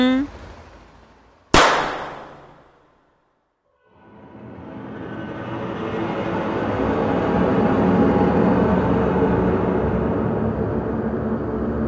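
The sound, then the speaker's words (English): A small pistol fires once, a single sharp, loud crack that quickly decays. After a brief near-silent pause, a broad, steady wash of noise swells up and continues to the end. “We really went and fired that tiny pistol.”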